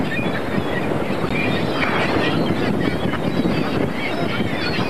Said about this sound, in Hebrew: וואו וואו וואו, זה רוח.